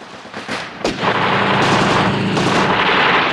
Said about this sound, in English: As the choppers buzz past, Blofeld's guards open fire with the machine gun turrets. Guards in black fire their submachine guns.